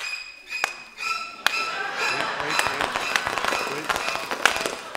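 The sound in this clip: Bubble wrap being popped: sharp snapping pops, a few isolated at first, then a denser crackling run, with voices present.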